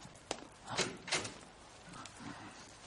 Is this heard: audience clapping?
no